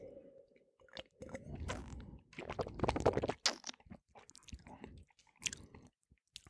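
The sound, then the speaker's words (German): Faint sipping and wet mouth sounds from someone tasting a spring wine, with irregular soft slurps and smacks and no talk. “ich muss noch einen zweiten Schluck nehmen.”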